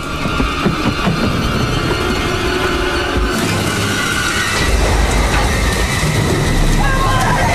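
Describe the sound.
Rain falling steadily outdoors, a dense, loud hiss of drops that continues without break throughout, thickening with a deeper rumbling wash in the second half.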